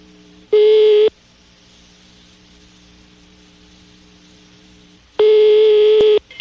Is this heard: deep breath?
no